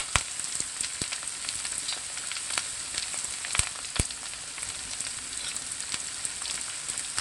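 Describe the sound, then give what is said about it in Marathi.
Onion, curry leaves and garlic paste sautéing in a pan give off a soft, steady sizzle, with scattered crackles and a few sharper clicks from stirring. “लसूण paste व्यवस्थित परतून घ्यायचं आहे”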